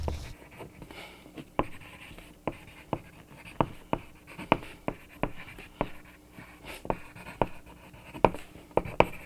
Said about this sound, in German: Ich hole uns mal einen Zettel und wir schreiben uns jetzt einen Wunschzettel.